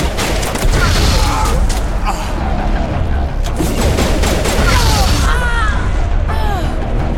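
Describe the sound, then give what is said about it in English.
Grenade explosions in a video game firefight: dense, continuous loud booming mixed with rattling bursts of gunfire, with no pause in the noise. “Let's see if we can throw some grenades. Get down!”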